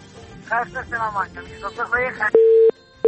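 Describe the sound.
A telephone disconnect tone cuts into a radio call-in show: after a stretch of talk, a steady mid-pitched beep sounds loudly, stops, and a second beep begins at the very end.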